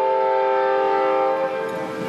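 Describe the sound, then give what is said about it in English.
A scenic railroad train in Conway, New Hampshire sounds its horn: a loud, steady, chord-like blast held for about two seconds that eases slightly near the end. “That's the train. That's our friend, the Conway Scenic Railroad.”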